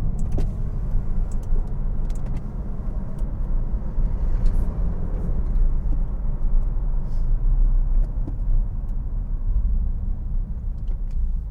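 Deep engine and exhaust rumble of a car while driving, recorded near its rear wheel. It is a steady, even low drone with a slight gurgle, holding level throughout with no talk.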